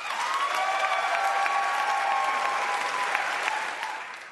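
A game show audience applauds as the first contestant is welcomed. The clapping is warm, dense and continuous, holding steady before fading gently near the end.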